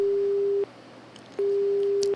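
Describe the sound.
Telephone busy tone after a phone-in call to a radio station is cut off: two long, steady, low beeps with a pause between them, loud and alone.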